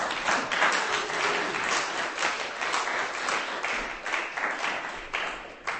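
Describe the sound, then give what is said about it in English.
An audience at a poetry reading applauds as a poet comes on stage: sustained, even clapping that holds for several seconds with slight swells. “Give him a hand. Ladies and gentlemen, would you please welcome Keith to the stage?”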